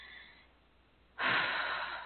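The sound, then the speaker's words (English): Deep, mindful breathing, in through the nose and out through the mouth. A faint airy breath gives way to a loud, sustained rush of air in the second half. “inhaling deeply through your nose and exhaling slowly through your mouth. That deep, mindful breathing to try to relax your body a little bit.”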